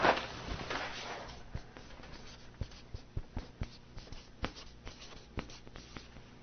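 Writing by hand: a faint series of short, scratchy strokes in an uneven rhythm, each one a brief dry scrape, with quiet gaps between them.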